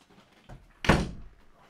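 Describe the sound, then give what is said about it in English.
A door being shut, a single solid thud preceded by a softer bump, with quiet room noise around it. “Hold on. My kids don't know how to close doors.”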